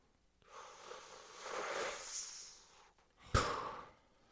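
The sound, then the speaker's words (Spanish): Deep breathing during a guided belly-chest-head breathing exercise: a long, soft, airy inhale builds and fades, followed after a brief pause by a sharper, louder exhale that tapers off gradually. No one speaks. “Respiro panza, pecho, cabeza, exhalo.”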